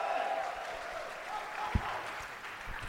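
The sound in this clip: Applause from the audience at a live comedy show in Milwaukee as the first comedian of the night is called up: a dense, steady wash of clapping with crowd noise underneath, holding at an even level throughout.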